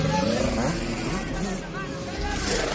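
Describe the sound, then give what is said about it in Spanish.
A Volvo car drives along the coast in a thriller film, giving a steady engine and road rumble throughout, blended with a murmur of voices. “El Volvo circula por la costa.”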